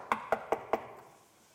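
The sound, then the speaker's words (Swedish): Knocking on a door: four sharp, evenly spaced knocks in quick succession, fairly faint, each with a short resonant ring that fades away after the last. “Vem är det som knackar på dörren?”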